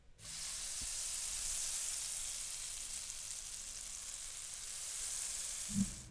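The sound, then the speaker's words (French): Sizzling of an omelette frying in a pan, a steady, continuous hiss that holds at an even level for the whole stretch, with no talk. “combinez les deux mélanges dans une poêle et faites une omelette.”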